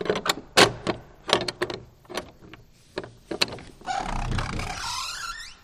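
A large key unlocks the old church door of San Blas in Anento: a quick series of sharp metallic clicks and clunks, then a longer, louder scraping creak as the heavy door moves.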